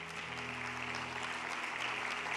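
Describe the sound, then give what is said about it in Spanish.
A church audience applauds in praise of God: a dense, steady wash of many hands clapping at once that holds at an even loudness throughout, with a faint low hum underneath. “Dale un aplauso a Él si lo crees.”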